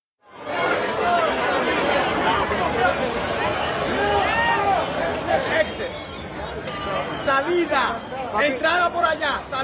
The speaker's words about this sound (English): That was the sound of Copa Chaos last Sunday night at Hard Rock Stadium in Miami Gardens.